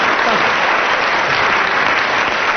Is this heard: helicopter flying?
no